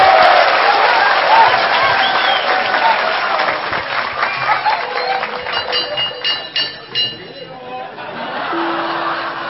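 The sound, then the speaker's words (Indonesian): Loud applause from an audience greeting a performer at a stage session, a thick burst of clapping with voices mixed in that gradually thins into scattered claps and then gives way to a man speaking. “Tepuk tangan yang keras.”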